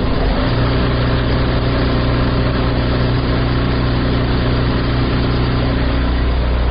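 Embroidery machines run in a tailoring workshop in Sheberghan ahead of Eid, giving a loud, continuous mechanical hum over a steady low drone, with no talk.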